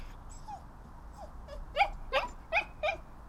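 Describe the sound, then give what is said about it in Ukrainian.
A dachshund whimpering quietly with a leash lying on its front paws, faint high whines at first, then four louder, sharper whimpers in quick succession near the end, with no barking. “Він зовсім не гавкає, але якщо уважно прислухатися, то можна почути тихеньке скавучання.”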